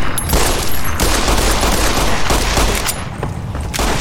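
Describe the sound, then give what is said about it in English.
Dense, loud gunfire from the video game Fallout: New Vegas, a sustained barrage of shots blurring into one continuous roar with almost no gaps, dipping only briefly before picking up again. “now we're gonna go with the gun. Okay. I'm just gonna shoot you in the head until you die.”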